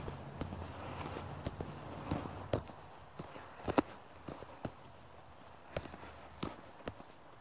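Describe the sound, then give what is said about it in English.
Footsteps of a person walking outdoors: a steady series of soft thuds at an even walking pace, faint over a low background hiss. “So here I am. I'm out, I'm walking.”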